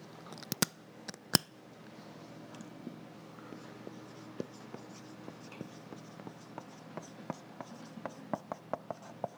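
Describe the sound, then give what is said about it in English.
The word 'represent' is written on a board: faint scratchy strokes with many small sharp ticks and taps, and two louder knocks near the start, quiet throughout. “So I'm just going to write the word represent on the board.”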